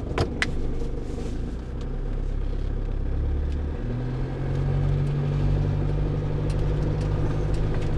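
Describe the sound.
A car drives along with its engine running: a steady, loud low hum, whose drone shifts to a firmer, sustained tone partway through, with no talk.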